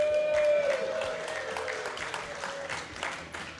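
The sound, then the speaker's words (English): A crowd applauding, a dense, sustained burst of clapping that is loudest at the start and then settles to a steady, slightly softer level. “So is that the sound of a crowd that got up early or hasn't been to bed yet?”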